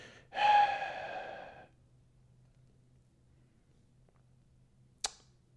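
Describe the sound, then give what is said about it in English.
A person breathes into a microphone: one loud, rushing breath lasting about a second, then near silence with a low hum and a single sharp click. “he's tired of listening to me breathe”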